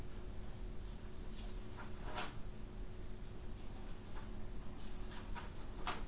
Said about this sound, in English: So I'm going to draw 10 little rectangles here.